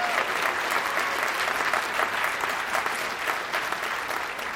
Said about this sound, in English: I want you guys to give a round of applause for Pastor John real quick.